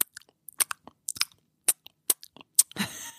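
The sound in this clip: Wet smacking and crunchy chewing noises from a mouth form a string of short, quiet clicks and bites in an irregular rhythm. A longer, louder rustling crunch closes the sequence.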